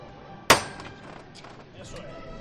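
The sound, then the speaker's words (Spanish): A processional float knocker (llamador) from the old Jesús Nazareno float of Granada strikes once, a sharp, loud metallic knock that quickly decays over faint background murmur. “Pues ese llamador es el llamador del antiguo paso de Jesús Nazareno de Granada.”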